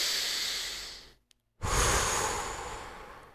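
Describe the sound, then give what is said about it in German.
A deep breath in and out: a long, airy inhale that slowly fades, a brief pause of silence, then a loud, breathy exhale that tapers off gradually. “Einmal tief ein- und ausatmen.”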